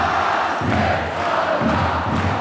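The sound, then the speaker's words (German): Standing basketball fans in an arena keep up a loud, sustained crowd roar, with chanting voices rising out of the din at a steady level. “Und das weiß jetzt hier auch die ganze Halle. Die Fans stehen, die Fans klatschen und singen tun sie natürlich auch.”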